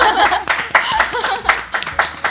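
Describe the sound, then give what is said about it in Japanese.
Hand clapping: a run of sharp, uneven claps mixed with people talking. “はい、拍手”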